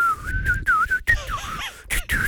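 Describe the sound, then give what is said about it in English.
A person whistles a short, wavering tune at a fairly high pitch, in several brief phrases broken by small pauses. “Like, go on, whistle now”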